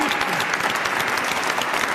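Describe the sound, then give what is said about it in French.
Audience applause: a dense, even wash of many hands clapping, loud and sustained throughout without pauses. “On n'a pas applaudi déjà”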